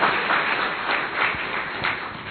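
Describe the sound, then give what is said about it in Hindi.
Applause from an audience welcoming guests, a dense, steady wash of clapping that holds at an even level throughout without pause. “आपका स्वागत है, बहुत बहुत स्वागत है, एक बार जोरदार ताली बजा के स्वागत।”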